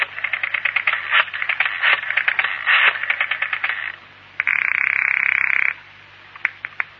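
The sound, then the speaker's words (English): A telephone rings on a call: a single sustained, buzzy ring lasting over a second follows a stretch of rapid rattling clicks, with a few sharp clicks after it. “You think about it for a couple of days and then phone Al.”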